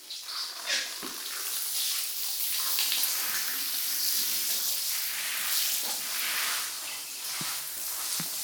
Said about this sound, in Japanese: お流しいたしますね。